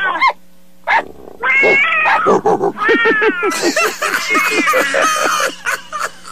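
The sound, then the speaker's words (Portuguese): Loud cat meows and caterwauling cries, a quick run of high, wavering yowls that follow one another closely across the whole stretch. “Então, joga água no gato, joga água no gato.”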